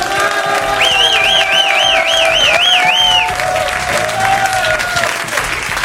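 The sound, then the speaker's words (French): Audience applause for a standing ovation: dense, steady clapping that holds at an even, fairly loud level through the whole six seconds. “C'est une standing ovation.”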